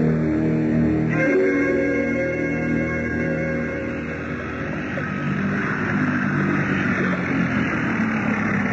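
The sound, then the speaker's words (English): A motorboat engine runs with a steady, loud, rumbling drone that carries on without a break throughout. “Why did you cut the motor”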